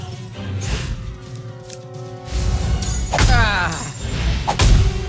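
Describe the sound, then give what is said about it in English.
Heavy thuds and whacks of kicks landing on a downed enemy in a video game, with crash-like impacts. Several loud blows come in an uneven run over a steady tonal background. “Look at your enemy on the ground, weak and helpless. Kick the shit out of him.”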